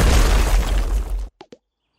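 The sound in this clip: An explosion sound effect: a loud, heavy blast with deep rumble that roars for over a second, then cuts off abruptly, followed by two brief small pops.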